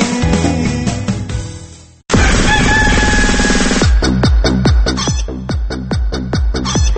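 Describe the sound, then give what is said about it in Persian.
A rooster crows at dawn, a loud, drawn-out call with a bright, harmonic tone. “این صدای خروس سحریه که برای شما میخونه”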